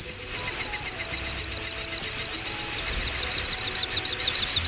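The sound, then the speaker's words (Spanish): Whistling wingbeats of a little bustard taking flight: a rapid, regular train of high, airy pulses that runs steadily through the whole clip at an even loudness. “vamos con nuestra ave del día, es el sisón, y lo vamos a escuchar durante unos 20 segundos.”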